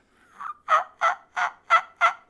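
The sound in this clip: Soft yelps on a turkey call: six short, evenly spaced notes with a slightly raspy tone, the first one quieter than the rest.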